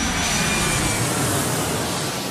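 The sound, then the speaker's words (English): Steady, loud engine roar from a Shorts Tucano basic fast jet training aircraft, a broad unbroken rushing drone that holds at an even level throughout with no voices. “the aircraft we're standing by is A Shorts Tucano. So it's a basic fast jet training aircraft”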